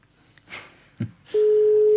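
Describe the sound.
A telephone tone sounds while someone places a call: after a few faint rustles and a soft knock, a single steady electronic tone starts partway through and holds unbroken to the end.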